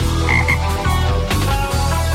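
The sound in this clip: A toad croaks in a repeated run of low, buzzing pulses with a steady rhythm, loud and alone without any talk.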